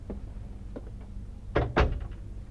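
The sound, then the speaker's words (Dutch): A front door opening or closing in a house: a few faint knocks, then two heavy thumps in close succession, fairly quiet with no voices. “Ik dacht dat ik de buitendeur hoorde.”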